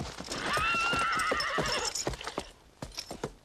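Steel-shod hooves of a big black horse clip-clop in a steady run of sharp beats, with a high, drawn-out whinny ringing over the first half.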